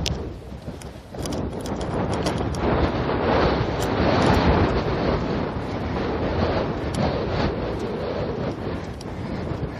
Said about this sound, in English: Oh, that is so cold. The wind I made the turn north, and now I've got the wind right in my face again.